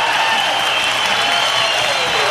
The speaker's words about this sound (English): The Newport Jazz Fest crowd showing a lot of love to saxophonist Grover Washington Jr. back in 1988